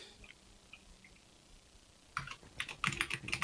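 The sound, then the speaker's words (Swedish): Quick typing on a computer keyboard to write a chat message; after a quiet stretch, a rapid burst of many crisp key clicks fills the final second and a half. “Jag kan skriva i chatten lite snabbt.”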